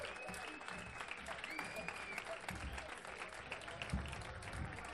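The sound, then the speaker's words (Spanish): Steady, loud clapping from a crowd at a 12th-anniversary commemorative gathering, sustained without a break for the whole stretch. “Per això d'entrada volia demanar un fort aplaudiment per totes elles, per tots aquests companys i companyes que han dedicat la seva vida a la lluita i que ara mateix no hi són.”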